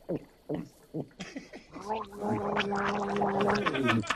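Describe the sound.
A strong drink is downed from a shot glass with a sustained bubbling, gargling gulp that lasts about two seconds and follows a few short spoken bursts.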